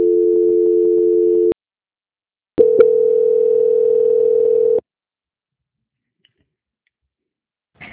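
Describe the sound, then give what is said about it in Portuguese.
Telephone tone during a call transfer to a bank's quality-control line: two steady, mid-pitched tones of about one and a half and two seconds, separated by silence and marked by small clicks, followed by a long silence. “Vai ficar mudo por alguns instantes, mas por favor, não desligue, tá ok? Ok. Transferência.”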